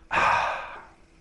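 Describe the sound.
A speaker imitates a deep inhalation that fills the lungs: one long, loud, breathy intake that swells quickly, then trails away over about a second.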